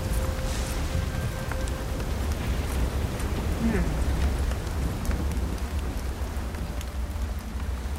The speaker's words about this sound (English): It's dark, it's raining.